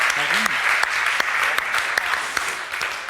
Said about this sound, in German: Applaus für beide Teams.